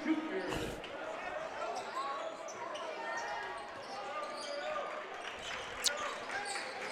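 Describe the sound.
A basketball bounces on the court before a free throw in a game, a few sharp thumps standing out from a steady murmur of crowd noise and voices.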